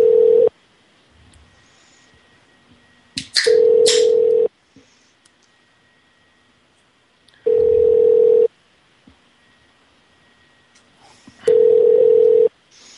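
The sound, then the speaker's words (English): A phone ringtone plays as a steady, mid-pitched electronic tone in bursts of about a second each, repeating roughly every four seconds. Faint background hiss fills the gaps between rings. “Hey, that's my ringtone.”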